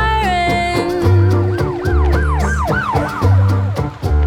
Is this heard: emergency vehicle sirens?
yes